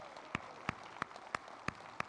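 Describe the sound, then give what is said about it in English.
An audience claps in praise, six quiet, evenly spaced claps in a regular rhythm against a faint background hiss. “And would you give a hand clap of praise to the Lord?”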